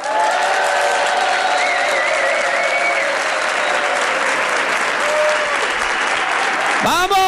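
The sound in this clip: A live audience at a comedy event in a Madrid hall applauds and cheers: dense, sustained clapping with shouts and whistles running steadily throughout, loud and unbroken.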